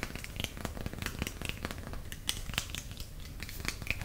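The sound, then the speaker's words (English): Crinkling and crackling as sheets of polymer clay are pressed by hand onto foil and the excess is torn away; many small, dense crackles and soft tearing sounds run steadily, with no voices. “I'm draping those sheets of polymer clay over the foil, using the pressure from my hands to get the clay to stick. I'm tearing away the excess to try to avoid overlapping as much as possible.”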